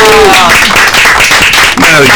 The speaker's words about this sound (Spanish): ¡Un aplauso!